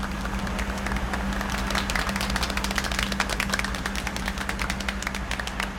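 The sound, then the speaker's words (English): Men in work shirts applaud after a machine's large drum starts spinning. Many hands clap in a quick, busy patter over a steady low hum. “Men wearing work shirts applaud.”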